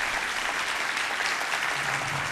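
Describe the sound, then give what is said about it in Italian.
Audience applause in the hall of Teatro Manzoni in Rome, an even, moderately soft wash of many hands clapping together without a break. “Rispetto a una platea che adesso voi sentirete, perché questo è l'applauso che arriva dalla sala del Teatro Manzoni a Roma.”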